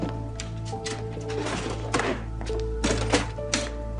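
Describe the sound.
Clunks and clicks come from a machine's compartment being opened for inspection, a device with numbered compartments and sensors: several sharp mechanical knocks and rattles over a steady tonal hum.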